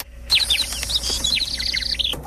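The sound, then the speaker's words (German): A robin sings a continuous run of high, rapid chirps and trills at moderate loudness, with no talk. “als würde ein Rotkehlchen auf Ihrer Schulter singen”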